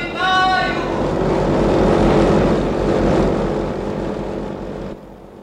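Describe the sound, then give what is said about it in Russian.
An airplane starts up for takeoff with a loud, steady propeller-engine roar that holds for about five seconds, then drops away sharply near the end. “Самолет на старт! Есть самолет на старт!”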